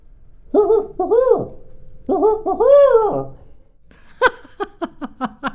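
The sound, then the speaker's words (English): A human voice imitates a barred owl's hooting call in two loud, wavering phrases of rising-and-falling hoots, followed by several short, clipped vocal bursts. “And the barred owl sounds like this.”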